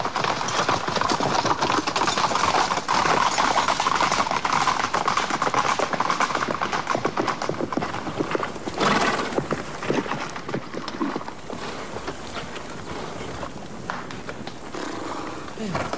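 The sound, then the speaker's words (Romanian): Horse hooves clip-clop in a long, dense run of many beats, loud and steady for most of the stretch before easing slightly toward the end; no neighing stands out. “De-abia am putut strâni calul.”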